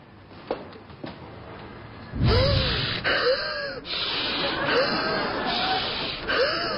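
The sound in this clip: Exaggerated deep breathing, done as a calming energy exercise: a run of loud, forced breaths and gasps that starts after a quiet opening and continues steadily to the end.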